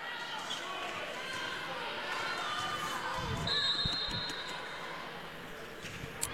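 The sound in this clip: Volleyball served in a match, the ball struck with a few faint thumps amid a low crowd murmur, while a commentator talks over it.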